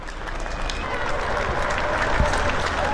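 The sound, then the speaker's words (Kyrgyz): People in Europe applaud medical workers during the epidemic, a sustained wash of clapping from many hands that holds steady without a break. “Илдет басаңдай элек Европа өлкөлөрүндө медиктердин мойнуна илинген жүктү түшүнгөндөр бирине сала бири кол чаап, дарыгерлерге колдоосун көрсөтүп жатышат.”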